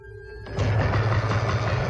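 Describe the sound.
A motorcycle engine starts: a faint hum gives way to a sudden catch, then a steady, loud, low rumble that keeps running to the end.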